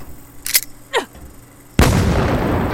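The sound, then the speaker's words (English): A flashbang grenade goes off in a sudden loud blast that keeps roaring as dense noise to the end, preceded by a couple of brief, softer knocks. “Fucking flashbang! Shit! Flashbang grenade!”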